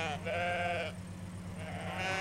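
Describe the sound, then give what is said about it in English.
Sheep bleating on a road after straying out of a field: two wavering, nasal bleats separated by a short pause, fairly faint over a low steady hum. “There are lots of sheep on the road. The sheep came out of the field.”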